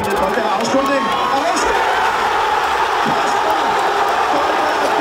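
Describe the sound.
A crowd celebrates during Euro 2021, with many voices blending into a lively, steady hubbub that stays loud and even from start to finish.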